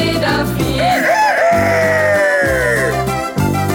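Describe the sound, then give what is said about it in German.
Rooster crowing over a bouncy song's backing music, with long wavering calls that swoop up and then fall away, loud throughout. “Und oben auf dem Kuhmist, da kräht stolz der Hahn.”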